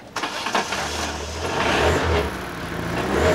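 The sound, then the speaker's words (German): A Volkswagen Beetle engine being started: a few sputtering cranks, then the motor catches and settles into a low, steady rumble that builds slightly in volume, without voices. “Schlüssel zu meinem Käferle. Aber aufpassen, gell? Ja, klar. So, und jetzt langsam anlassen und alle Gänge raus. Ja, habe ich gemacht. Na ja, dann los!”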